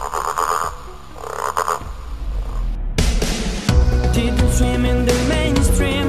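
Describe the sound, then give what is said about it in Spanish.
Green frog croaking in a run of raspy, rhythmic calls, loud throughout and heard alone. “Soy verde, me gusta saltar, jugar en el charco y también sé croar. ¿Quién soy? La rana.”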